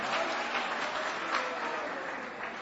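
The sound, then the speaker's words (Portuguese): A church audience claps for Jesus during a worship service, with thick, continuous applause at an even level that eases slightly toward the end. “Mais forte as palmas para Jesus, irmão. Mais forte as palmas para Jesus.”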